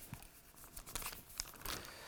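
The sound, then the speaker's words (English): Paper rustles as a page is turned, with a few short, crinkly bursts of brushing and crackling at a fairly low level and no voices. “turn my page here”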